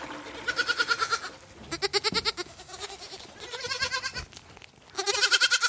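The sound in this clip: Young goat kids bleat in a wooden stable during kidding season. The bleats are nasal and wavering, some higher and some lower in pitch, and they overlap in several loud bursts with short lulls between them.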